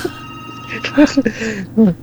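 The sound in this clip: A telephone rings for an incoming call-in: steady electronic ringing tones that run through the short stretch, with a voice speaking over them.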